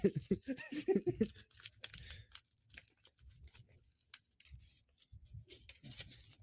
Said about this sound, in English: Here, get a piece of paper. That's what the damn cardboard was. Get a longer piece rolled up. We're going to roll this